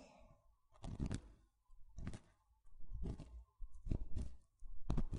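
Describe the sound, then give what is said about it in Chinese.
Slow, deep breathing in and out makes soft, airy whooshes in several long, evenly spaced pulses. Short quiet gaps separate the breaths, and no other sound is heard. “吸气，吐气。吸气，”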